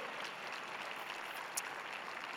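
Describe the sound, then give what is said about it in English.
An audience claps hands during a church service: a steady, dense wash of applause that holds at an even level throughout, with no voices standing out. “Come on, let's give God our best hand clap today.”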